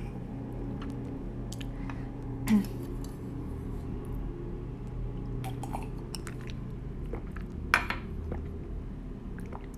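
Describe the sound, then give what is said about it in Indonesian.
Dishes being washed after a meal, with faint clinks of plates and cutlery scattered over a soft, steady background and a couple of sharper knocks standing out. “Apaan masa cuci piring cuma 48 detik?”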